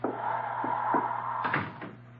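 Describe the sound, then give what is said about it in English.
A diner door pops open around midnight, heard as a few dull knocks and a rattling clatter over a steady low hum, louder toward the end. “it was around midnight on a miserable night when the door popped open and he popped in.”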